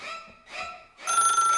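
A telephone rings for an incoming call, with two short ring bursts followed by a longer, unbroken ring, all fairly quiet.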